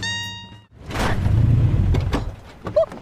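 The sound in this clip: Car doors open and close as two people climb out of a car: a sustained rushing, shuffling noise ends in a solid thud of a door shutting.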